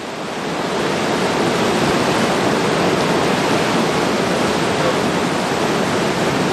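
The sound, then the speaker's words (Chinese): A tidal bore surges at Yanguan during the tide-watching season: a dense, loud rushing roar of water that swells over the first second, then holds steady and constant with no break. “除了看得清潮水的姿态，我们更听得见它由远及近的像立体声一样的声响，我们不妨放大现场声，一起聆听大自然的力量。”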